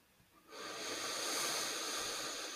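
A slow, deep breath in during a relaxation breathing exercise, a soft, airy hiss that begins after a short quiet moment and holds steady to the end, with no talk.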